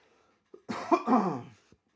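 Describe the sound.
A rough throat-clearing cough: one harsh burst with a couple of rasping pulses, set off by small clicks just before and after. It is heard alone, with no talk.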